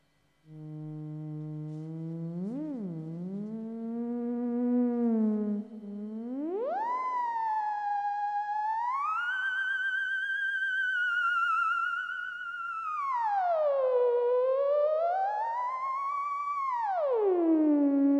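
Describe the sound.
A theremin, routed through a vocal processor, plays one smooth, continuous pitched tone that glides and swoops up and down, wavering slightly, with a rich, humming timbre that sustains alone for about seventeen seconds.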